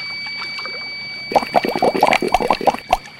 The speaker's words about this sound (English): Now let me help you into the water. Oh, Bill, swim like the wind. Swim for our freedom.